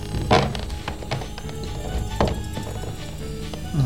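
Rummaging through a kitchen cupboard, with a few dull thunks and knocks and lighter taps over a steady low background hum.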